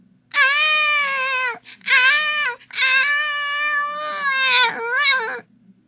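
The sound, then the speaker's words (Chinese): A baby cries in loud, high-pitched wails. Several sustained bouts are broken by brief catches of breath, and the crying grows strained toward the end. “又哭了。”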